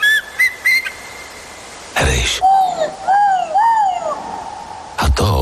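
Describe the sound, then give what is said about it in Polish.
An eagle calls in a Carpathian forest of century-old firs and beeches. A few high whistled notes come first, then a sudden noisy burst, followed by a series of several arched, whistling cries and another brief loud burst at the end. “Słyszysz? To stuletnie jodły i buki Karpat. To orzeł.”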